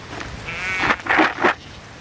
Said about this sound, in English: They are the most beautiful sheep. So these are Herdwicks, a traditional English breed.